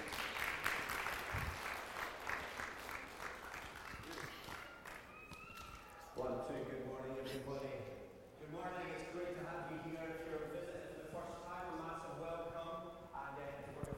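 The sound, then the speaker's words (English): Applause and clapping from an audience welcoming a pastor to the stage, a dense steady patter for about six seconds before music comes in and continues to the end. “Let's give it up for Aaron.”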